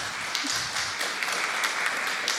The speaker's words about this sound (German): Für die freien Getränke gibt's Applaus. So will ich das sehen.